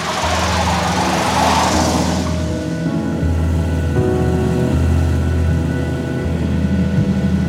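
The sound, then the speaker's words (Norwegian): A van's engine drones steadily as it is driven, a loud, continuous low rumble that holds at an even level throughout, with some brighter noise at the start. “Jeg lempa den og de våte klærne inn i varebilen og kjørte mot Lier sjukehus.”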